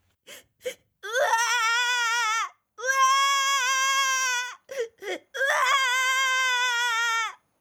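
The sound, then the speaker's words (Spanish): A small cartoon creature sobs and wails inconsolably. A couple of short sobbing catches lead into long, wavering high-pitched cries, broken by a few more brief sobs before a final drawn-out wail. “Parece que alguien llora. ¿Quién será? Es Luca, el lucumillo. Llora desconsoladamente.”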